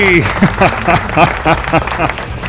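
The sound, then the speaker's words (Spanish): Canned applause sound effect plays under a loud, animated voice, the clapping rising and falling in short bursts throughout. “¡Aplauso! ¡Aplauso! ¡Aplauso!”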